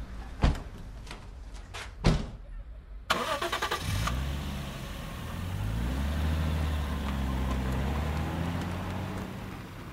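Car doors thud a few times, then the car engine cranks and catches. It settles into a steady running hum whose pitch shifts and rises as the car drives off.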